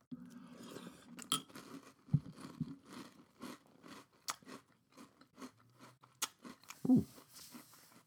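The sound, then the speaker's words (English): Crunchy chewing of a big mouthful of Nutter Butter peanut butter cereal, with many irregular crackling crunches and softer moist mastication between them, fairly quiet and close. “Ooh, that's a big bite. Today I will be reviewing Nutter Butter Cereal made with real peanut butter.”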